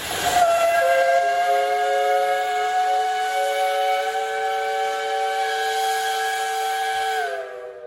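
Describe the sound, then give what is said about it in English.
A steam whistle, installed in 1892 on a university campus in Georgia, sounds one loud sustained blast of several harmonic tones together. It holds steady for about seven seconds, then its pitch sags briefly as it cuts off. “That's the iconic steam whistle on the campus of the Georgia Institute of Technology.”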